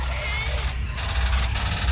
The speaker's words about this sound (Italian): Chi spara? Chi è quel maledetto? Ho ordinato di non sparare!